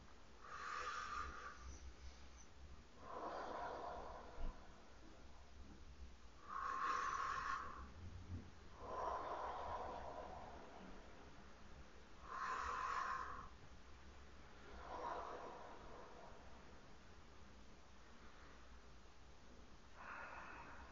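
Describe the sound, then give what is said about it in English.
Slow, deliberate breathing, very faint: drawn-out, airy inhales and exhales that alternate at an unhurried, even pace across the whole stretch, with no voices. “3 breaths for humility that allows us to listen better.”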